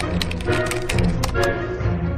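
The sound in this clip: Typing on a computer keyboard as a question is entered, a quick run of many light clicking keystrokes, faint and fairly steady, with no voices.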